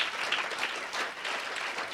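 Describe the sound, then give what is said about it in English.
An audience clapping at a church service, many hands making a dense, uneven burst of applause that swells and dips slightly in loudness. “All right, if you are clapping for Jesus, let's do it properly.”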